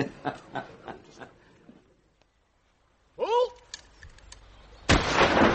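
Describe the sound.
A gunshot rings out at a shooting party in a field, one sharp, loud blast with a trailing decay that comes after some brief talk.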